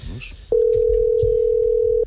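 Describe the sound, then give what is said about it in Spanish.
Steady telephone tone as a call is being placed: one continuous, even, mid-pitched tone held for about one and a half seconds after a brief voice. “Estamos llamando.”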